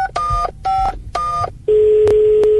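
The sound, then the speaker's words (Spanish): Telephone touch-tone dialing while placing a call to the mayor of Bucaramanga: three short beeping bursts, then a steady continuous tone takes over, with a couple of faint clicks over it. “Vamos a preguntarle directamente a nuestro alcalde de Bucaramanga y llamémoslo al ingeniero a esta hora, al alcalde de Bucaramanga de Voz Populi.”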